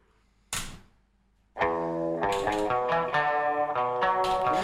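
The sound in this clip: A 1965 rock single, a 45 RPM record, starting up after a brief burst of noise: a bright, sustained guitar-led passage with ringing harmonic notes that plays on loudly to the end.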